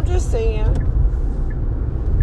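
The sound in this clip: A car being driven gives a steady low engine and road rumble throughout, with a voice heard briefly at the start.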